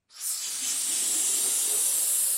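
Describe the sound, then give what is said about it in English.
Helium gas hisses from a tank into a latex balloon at a balloon shop. The bright, airy hiss starts abruptly and holds steady and continuous for about two seconds. “inflates a latex balloon with an increasingly precious gas”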